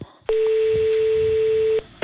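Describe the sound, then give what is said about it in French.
A single steady telephone line tone sounds while calling a French psychological-support hotline: one loud, even, mid-pitched beep lasting about a second and a half, with faint background noise before and after. “Le numéro vert a été mis en place avec une cellule d'écoute. On va appeler ce numéro vert.”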